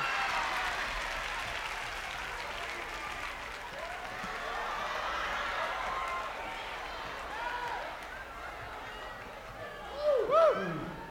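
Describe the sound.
An audience applauds to welcome Edgar Winter and the White Trash at a live performance, a dense, steady wash of clapping that lasts throughout, with a brief louder swell and whistle-like cheers near the end.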